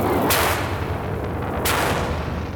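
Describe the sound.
Gunfire from space fighters in a radio drama: two sharp, loud blasts over a constant roaring noise bed, spaced more than a second apart.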